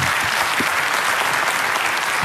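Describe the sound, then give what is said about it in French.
Studio audience applause as a guest is welcomed: a short burst of dense, even clapping from many hands, filling about two seconds at a steady level. “applaudissements pour Christophe”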